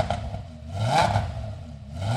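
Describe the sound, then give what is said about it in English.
A 10-cylinder Audi race car engine revs in a workshop, a low, rough rumble that swells to a peak midway and then eases back, with light mechanical clatter underneath. “And that's a 10-cylinder Audi he's revving up in the shop.”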